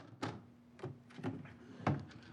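A desk drawer is shut, heard as a few soft wooden knocks and thuds spaced unevenly over a couple of seconds, faint and with no talk.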